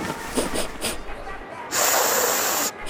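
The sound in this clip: Someone with a nose stuffed up by dust allergies snorts and sniffles: a few short, rough snorts come first, then a longer, louder hissing pull of air through the blocked nose.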